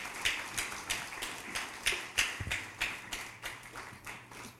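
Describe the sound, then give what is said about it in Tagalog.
A church audience claps in a steady, even rhythm, many quick claps following one another at a fairly faint level. “Sige po, palakpakan natin si Lord.”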